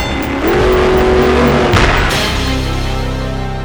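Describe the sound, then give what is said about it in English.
A 280-horsepower car with a steel-reinforced frame, weighing over 3,000 pounds, revs hard as its tires screech, a loud sustained engine roar with a rising whine early on and a steady squeal underneath. “In this corner, wearing a steel-reinforced frame, 280 horsepower, weighing in at over 3,000 pounds, Automobile!”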